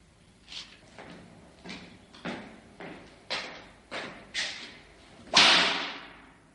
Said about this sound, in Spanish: El gordo lleva una fina vara en la mano. La examina, va hacia una mesa y descarga un golpe sobre ella.